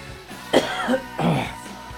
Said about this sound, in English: Someday this cough is going to go away.